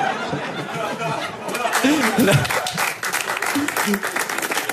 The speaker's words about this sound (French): C'est marrant parce qu'on sent qu'il applaudit parce qu'il est forcé, mais je sais pas si c'est vrai.